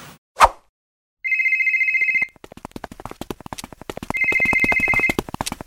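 Telephone ringing on an outgoing call: after a single sharp click, two bright electronic ring bursts about a second long sound, separated by a stretch of rapid clicking pulses.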